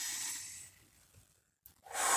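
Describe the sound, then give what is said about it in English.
A slow, deep breath is drawn in during a meditation breathing exercise, a soft airy hiss that fades into quiet before another breath begins at the very end. “Breathe in deep”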